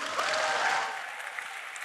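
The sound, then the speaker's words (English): Audience applause greeting a guest speaker at a New Day event, dense and steady clapping that eases slightly in the second half. “would you put your hands together and give a big New Day welcome”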